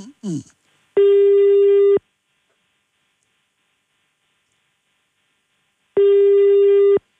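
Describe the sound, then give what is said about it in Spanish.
Ringback tone of a telephone ringing unanswered: two loud, steady buzzing tones, each about a second long and roughly five seconds apart, with silence between and a brief voice fragment just before the first. “No contesta, puede estar trabajando el Yale.”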